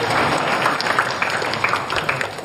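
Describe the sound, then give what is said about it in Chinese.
Audience applause welcoming a speaker to the stage, a steady, fairly soft patter of many clapping hands that continues evenly throughout. “大家掌声欢迎”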